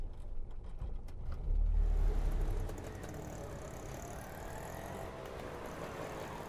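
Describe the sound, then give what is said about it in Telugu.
An auto rickshaw engine stopping at a doorway: a low rumble swells briefly and then drops to a steadier, quieter hum. “Vakitlo auto ఆగినట్టుంది”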